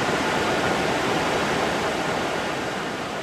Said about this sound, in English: This is the sound of the technology that supports healthcare across the United States. Smith and I are in a temperature-controlled room full of thousands of servers.